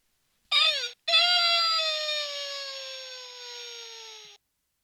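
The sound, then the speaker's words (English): High-pitched squeal of Mr. Bill, the clay figurine clown from a Saturday Night Live parody of children's clay animation. A brief cry is cut off, then a long nasal wail follows, slowly falling in pitch as it fades out. “It's the squeal of Mr. Bill.”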